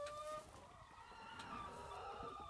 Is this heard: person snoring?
no